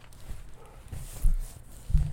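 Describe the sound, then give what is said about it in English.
Soft thumps and scuffs of a dog moving about close to someone: a few low, uneven bumps over quiet background noise. “And, oh my God, dog in my face.”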